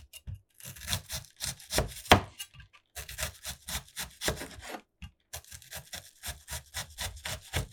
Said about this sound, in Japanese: あと半分玉ねぎ切ります。